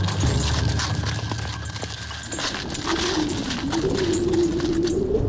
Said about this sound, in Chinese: 一行车骑隆隆驶出了上林苑，朝霸陵县亭方向驰去。